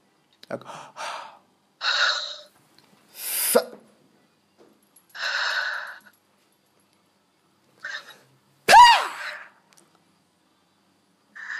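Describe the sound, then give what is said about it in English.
Heavy breathing in and out through the mouth during a prayer for healing: a series of loud, breathy gusts separated by pauses, with one final breath turning briefly voiced. “Just breathe in and out 5 times heavily with your mouth.”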